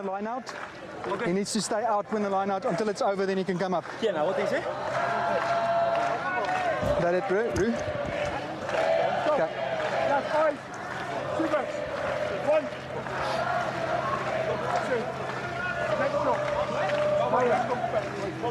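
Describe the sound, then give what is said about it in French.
Argentine rugby fans sing in the stadium stands, a sustained, droning crowd chant that carries on steadily under loud, continuous talking. “Magnifique culture, cette culture argentine qui chante dans les tribunes. Pour encourager ces garçons parce qu'ils le sentent”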